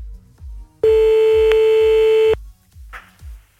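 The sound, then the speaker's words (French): Telephone tones as a call is placed to the police: a steady, loud electronic tone holds for about a second and a half, set against low rhythmic thumps, followed by a brief rough burst near the end. “Bon, attends, on va le rappeler quand même, hein, des fois que... Hop, retour chez le monsieur, là, hop, direction la police.”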